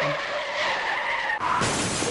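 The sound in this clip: A car's tires screech in a long, high skid, then give way abruptly to a loud burst of crashing, crunching noise in a sound effect.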